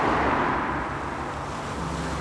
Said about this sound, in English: The car carrying Che wends its way from the city and on to this luxury outpost.